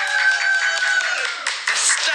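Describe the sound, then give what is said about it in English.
Applause and cheering for a primary school staff member: continuous clapping with a sustained high whoop over the first half and brighter bursts toward the end. “Let's have a big round of applause, a whoop and a cheer for Mrs. Dale!”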